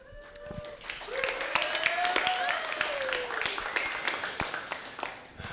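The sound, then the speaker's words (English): Applause from a church audience after a legal incorporation announcement: scattered sharp claps that build into steady clapping, mixed with voices and rising tonal sounds underneath. “that's applause for me being a very marginal lawyer”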